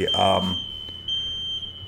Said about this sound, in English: There was a fire alarm in the building in which I am currently residing.